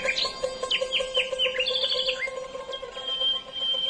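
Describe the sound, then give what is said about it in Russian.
A nightingale sings a cheerful song of quick chirps and rapid falling whistles, bright and fairly faint, with a steady low tone underneath. “И запел соловей веселую песню, прыгая с ветки на ветку, с дерева на дерево.”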